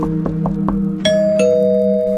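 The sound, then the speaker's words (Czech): A doorbell at a house rings several times: four quick, short dings, then two brighter chime tones that ring on and sustain, loud and with no voices. “Několikrát zazvonil, ale nikdo mu nepřišel otevřít.”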